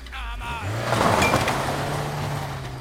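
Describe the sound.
A car pulls away with its engine revving up in rising pitch, then settles into a steady drone as it drives off. Voices talk over it.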